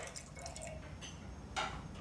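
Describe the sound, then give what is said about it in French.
Red wine is poured into a glass as a faint trickle with soft drips, then a brief, slightly louder splash near the end. “Il se sert un verre.”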